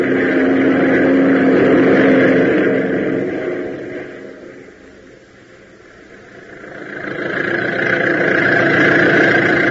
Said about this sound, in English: So hit that throttle, will you?